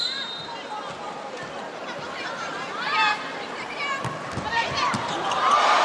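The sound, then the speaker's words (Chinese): Volleyball serve and block rally in a China versus Japan match, with a few sharp ball impacts over steady crowd chatter and murmuring voices. “又是好发球，双人拦网盯住再拦，漂亮，日本队后攻轻打”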